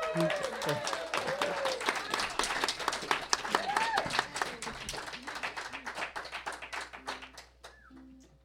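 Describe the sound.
An audience applauds to welcome a performer joined by members of a ukulele group, with many crisp claps in a dense burst and a few scattered voices. The clapping gradually thins and softens toward the end.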